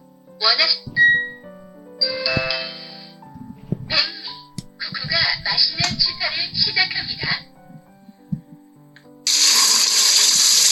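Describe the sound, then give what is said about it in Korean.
Running water from washing vegetables (chili peppers, onions, green onions) in a kitchen, a loud steady rush arriving near the end after a stretch of talk with scattered clinks. “이제 이거는 야채 채소들 씻는 소리입니다.”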